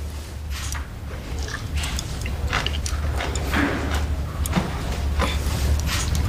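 Someone chews food in many irregular, crunchy clicks and wet smacks over a steady low hum, with no talk.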